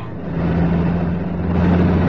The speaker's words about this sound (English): He leans forward on the back seat of the car, folds his arms on the back of the front seat, and smiles as he watches the speedometer needle flicker on the 90 mark.